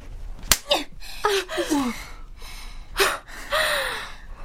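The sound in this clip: A slap lands in a tense drama scene, a single sharp crack near the start, followed by gasping, pained breaths and strained vocal sounds that rise and fall.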